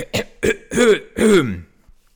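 Coughing and throat clearing from someone with a biscuit stuck in the throat: two short, sharp voiced bursts followed by two longer, rasping, strained clears, loud and close together.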